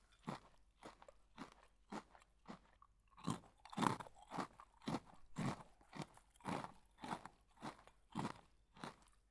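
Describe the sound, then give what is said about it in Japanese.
A hungry animal crunching dry pet food from a convenience store: many quiet, evenly spaced crunches in a steady chewing rhythm, with no talking. “いい食べっぷり。やっぱりお腹空いてたんだね。まだあるからちゃんと食べ。”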